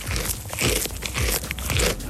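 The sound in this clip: A goat chewing its food, a run of moist crunching bites that repeat steadily through the whole stretch without pause.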